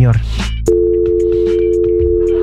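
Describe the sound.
A steady telephone dial tone sounds after the other party hangs up on a call. It follows a brief moment of voices and continues as a loud, unbroken hum with a few faint clicks over it.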